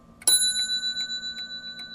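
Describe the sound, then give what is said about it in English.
A grandfather clock sounds one bright, bell-like chime that rings on and slowly fades, while steady, even ticking continues beneath it. “puts on gloves to wind her grandfather clock”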